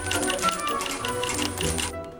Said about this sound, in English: He bangs on the machine and quarters shoot out.